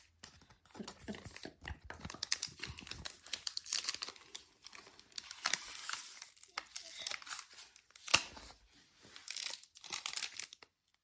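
Foil wrapper of a Japanese Pokémon card pack crinkling and tearing as it is pulled open: many irregular rustling, crackling bursts with pauses between them, and one sharper, louder rip late on.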